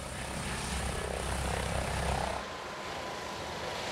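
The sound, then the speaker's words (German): An ADAC rescue helicopter in flight gives off a steady, broad engine and rotor roar, loud and continuous, then drops suddenly to a lower, quieter rumble partway through. “Der ADAC-Hubschrauber Christopher 26 ist in Sande bei Wilhelmshaven stationiert. Er fliegt oft Rettungseinsätze auf den ostfriesischen Inseln.”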